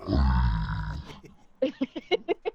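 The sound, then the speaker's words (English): A burp-like sound: a low, rasping, rough eructation lasting about a second, followed by a short pause and then people talking. “It sounded like a burp.”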